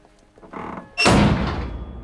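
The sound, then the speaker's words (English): A structure's roof crashes down like a giant bin lid: faint creaking and rattling come first, then one sudden loud metallic slam that rings out and slowly decays. “Following his final blow, one of the lights on the structure droops and the roof crashes down like a giant bin lid, shutting him in.”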